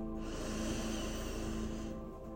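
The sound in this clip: A deep inhale during a guided meditation breathing exercise: a soft, steady, airy hiss that holds for nearly two seconds before fading away, with a faint low hum running underneath.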